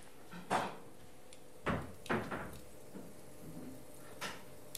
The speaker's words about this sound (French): On va pas le voir, mais donc là je suis en train de couper les tranches.